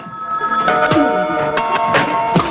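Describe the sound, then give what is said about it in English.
A telephone rings in an apartment, its bell going steadily and loudly across the whole stretch with no voices over it. “In the old man's apartment, the phone rings.”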